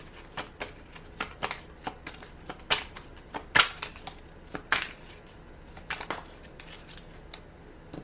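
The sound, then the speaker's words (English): Tarot cards being shuffled for a reading, with many crisp riffling snaps and slaps in an irregular rhythm, moderately loud and with no talking. “Can we clarify the message of concern and coffin timeline, please? Can we clarify that? May I have a card to clarify that, please?”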